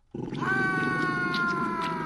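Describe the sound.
Wild dogs give a loud, sustained harmonic cry that holds steady for about two seconds over a rough, noisy low rumble.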